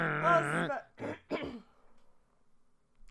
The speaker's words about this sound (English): Let me clear my throat.